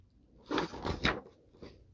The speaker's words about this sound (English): Shut your eyes as you take each bite and say, mmm.